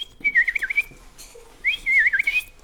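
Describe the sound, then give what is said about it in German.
A person whistles an imitation of a bullfinch call in two warbling, wavering high phrases separated by a short pause, clear and alone without speech. “Die Vögel der Heimat. Der Dumpfaff. Der Dumpfaff pfeift so.”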